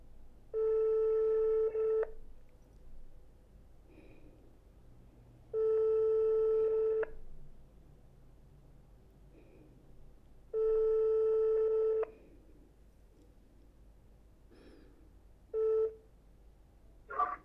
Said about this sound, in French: Vous allez être mis en relation avec votre correspondant. Numérotation en cours.